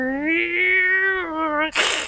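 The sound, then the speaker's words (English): Cats fighting at night: a long, steady, low yowl that holds its pitch, then cuts off into a sudden, harsh burst of hissing at the end. “You, at one point, you hear cats hissing”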